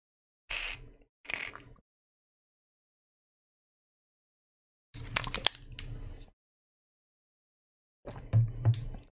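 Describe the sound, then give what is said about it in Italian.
Someone pausing to take a drink: a few short, quiet bursts of sipping and handling noise separated by stretches of silence. “aspetta che bevo un attimo intanto che formulo la frase.”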